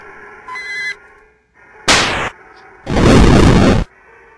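EarthBound fire-attack effects play in battle: a short chirpy tone, then two harsh bursts of fiery noise, the second longer and louder.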